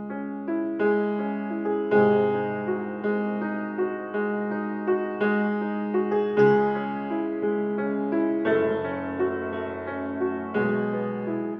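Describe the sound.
A piano plays a slow, steady sequence of chords with every note struck equally loud, so the melody on top does not stand out. Each note decays quickly after it is struck.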